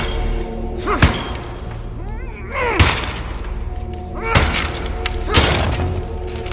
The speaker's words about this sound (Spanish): la hermana Sandrine observa desde el coro cómo Silas golpea el suelo, cerca de un medallón, con un gran candelabro metálico.